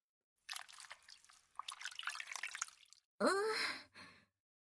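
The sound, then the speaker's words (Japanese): Water trickles and drips in uneven bursts as a towel is wrung out over a tub of hot water, followed by a clear voiced sigh. “このお湯を張ったおけでタオルを絞るわ”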